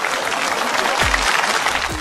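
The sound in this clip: Enthusiastic applause from a crowd, a dense and continuous wash of clapping that holds at an even level from start to finish.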